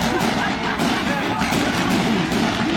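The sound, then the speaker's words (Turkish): Fireworks at a wedding celebration exploding after veering sideways instead of rising, a loud, dense and continuous barrage of crackling blasts with no pause. “Havai fişekler gökyüzüne yükselmedi. Aksine yön değiştirdi. Patlama bir süre devam etti.”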